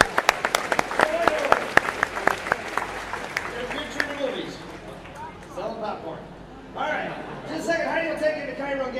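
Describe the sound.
Audience applause for a performer taking a bow, with dense, lively clapping filling the first few seconds before thinning out under voices and chatter.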